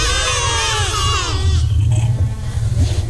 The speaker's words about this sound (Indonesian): Suara kambing.